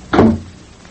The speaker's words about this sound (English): the voice of Mr. Way seems to hang on to the room after the door closes behind him